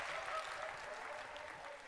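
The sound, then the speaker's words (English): Applause from an audience, a dense, even patter of many hands clapping that stays fairly quiet and steady throughout. “And there we go. We get a big round of applause.”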